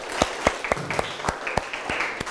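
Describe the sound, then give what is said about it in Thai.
Scattered hand claps from a small classroom group applauding a student, a steady run of sharp separate slaps at a fairly even pace, fairly faint and with no voices over them. “ปรบมือให้เพื่อนหน่อยครับเก่งมากๆเลยครับ”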